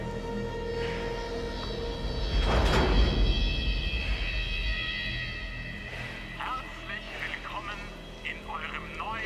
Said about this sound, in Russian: Несколько рабочих открыли дверь первого вагона.